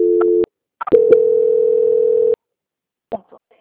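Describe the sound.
A telephone call transfer tone: a short steady tone, a couple of clicks, then a longer steady tone lasting over a second, ending with a few faint clicks.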